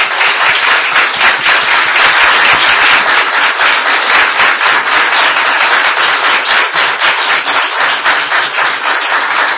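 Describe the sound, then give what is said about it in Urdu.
A church audience claps for Jesus during worship, loud, dense and continuous, with many hands striking in a quick, steady rhythm throughout. “ہللویہ، آئے عظیم یسوع کے لیے تالیاں بجائیں گے۔”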